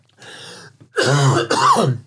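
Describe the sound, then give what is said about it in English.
Harsh coughing and throat clearing from someone choking on a piece of candy stuck in the throat: a few raspy, strained bursts, each with a rough voiced edge, and no speech between them. “I just got a piece of candy. Piece of candy stuck in my throat.”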